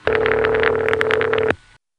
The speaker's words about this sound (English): We phone freaks call it Canada Ring. Now, as far as I can tell, this ring machine is either made or at the very least distributed by Northern Electric,